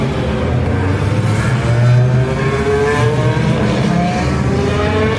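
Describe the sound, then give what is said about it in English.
Race car engines roar as the field leaves the grid at the Le Mans 24-hour endurance race, a dense, continuous drone of several overlapping engines at steady high volume, with no talk. “This is the sound of the Le Mans 24 hours as the cars leave the grid.”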